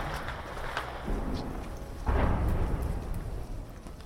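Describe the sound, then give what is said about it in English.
Battle sounds from fighting in the heart of ancient Aleppo, rendered as muffled low rumbling with a few dull booms, with a heavier, louder burst about halfway through, all under steady background noise. “But you can probably also hear in the background that the battle has very much come to the heart of ancient Aleppo.”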